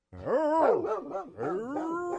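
A very stressed female dog gives two drawn-out, yowling barks that arch up and down in pitch, loud and tonal, with a short break between them.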